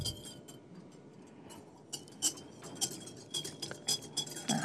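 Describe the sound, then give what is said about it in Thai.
Stirring a chemical mixture that has not yet foamed: faint, irregular clinks and taps of a stirrer against the container, with a few sharper knocks toward the end. “ในการผสมขั้นตอนพวกเนี้ยเราสามารถกวนแรงได้นะครับอาจารย์เพราะว่ามันยัง ไม่เกิดฟอง”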